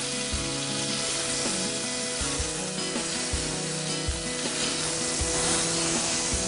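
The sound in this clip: Oil sizzles in a frying pan holding too much oil, a steady, dense hiss and crackle that stays even throughout, with no voices.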